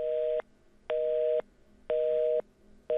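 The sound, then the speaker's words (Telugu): A telephone busy tone follows a dropped call: three evenly spaced, mid-pitched beeps with short gaps between them, and a fourth beginning as the sound ends. “Oh, call drop అయిపోయింది.”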